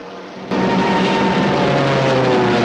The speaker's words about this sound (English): Jim spots Woody's plane spiraling out of control and quickly heads in his direction.